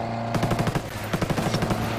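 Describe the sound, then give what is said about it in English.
Automatic gunfire in a Tom Clancy's Ghost Recon Breakpoint tactical shooter game: two loud bursts of rapid shots crackle in quick succession over a steady low hum. “We got shots.”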